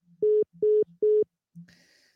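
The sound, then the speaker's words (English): Telephone tones sound while calling back a caller who has hung up: three short, even beeps at a steady mid pitch, then a fainter, higher tone. “Let me call back. This is ridiculous. The caller has hung up.”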